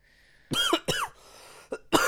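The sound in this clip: Dry, throaty coughing from a person with a parched throat and nothing to drink: a few harsh, rasping bursts in quick succession, then a short pause and two more sharp coughs, loud and with no talk over them.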